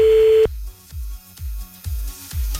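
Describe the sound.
A steady single-pitched telephone ringback tone on an outgoing call holds for about half a second, then cuts off. A regular rhythm of low, soft thuds follows.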